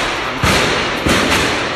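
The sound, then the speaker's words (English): Police gunshots in a city street near a bridge, captured on a bystander's recording: a few dull, muffled bangs over continuous background noise. “Police are shooting.”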